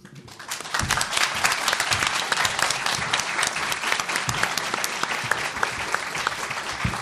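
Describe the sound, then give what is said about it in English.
Audience clapping: dense, even applause that starts almost at once and holds at a steady level throughout. “Clap. Don't show of hands. Clap.”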